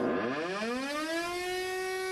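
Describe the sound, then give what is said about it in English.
A wartime air raid siren in Düsseldorf, 1944, wails alone, its tone sweeping steeply upward in pitch and then holding a loud, steady, rich howl. “In October 1944 alone, the sirens rang out 112 times.”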